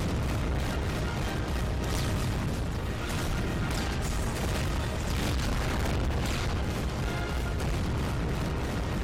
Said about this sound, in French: Mais à 1h23, après une hausse de la température du réacteur, évidemment, ça pète.